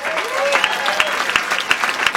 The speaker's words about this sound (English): these are men and women that have served our military that deserve an incredible round of applause.